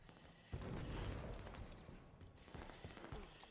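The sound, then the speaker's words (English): A rocket launcher fires in a video game: a sudden low, booming blast, then a sustained rumbling roar that fades slightly. Some muffled thumps follow later, all fairly faint. “Rocket launcher ready.”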